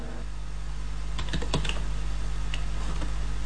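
Typing on a computer keyboard: a few quick bursts of crisp key clicks over a constant low hum, with quieter stretches between the bursts.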